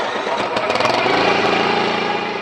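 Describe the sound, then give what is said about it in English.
A small one-cylinder Subaru Robin engine of about 7 horsepower, mounted on a kayak, starts and runs with a steady, buzzing, mower-like drone. The sound is loud and constant, with a rapid firing pulse throughout. “It sounded to me like a lawnmower. Yeah. It's a little one-cylinder Subaru Robin engine. It's about 7 horsepower.”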